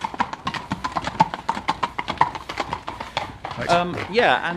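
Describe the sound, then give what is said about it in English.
Horses' hooves clip-clop in a steady, even rhythm on a countryside road, with many crisp hoofbeats in a row. Voices take over near the end as the hoofbeats fade. “Horses are coming. We have horses coming. They're lovely. Horses are exciting. Yes. Proper countryside when the horses are here. So it's the sound of the horses.”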